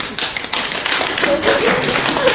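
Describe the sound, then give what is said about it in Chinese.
Hand clapping during a self-introduction on stage, a dense, steady run of claps that holds at an even level for the whole stretch. “我一个人鼓掌多没意思，那还行。”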